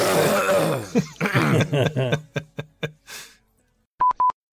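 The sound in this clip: Phlegmy throat clearing: a long, rough, rasping burst breaks into a run of shorter throaty grunts that thin out and fade, followed after a brief pause by two short electronic beeps.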